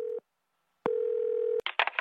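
A telephone being dialed: two steady tones separated by a silent gap, then a quick run of short dialing beeps.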